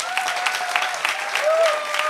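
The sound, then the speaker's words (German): An audience at a church gathering applauds the technicians and video crew. Dense, steady clapping runs without a break, with a faint sustained tone underneath. “lasst uns unseren Technikern und Videomenschen hier auch einen großen Applaus geben.”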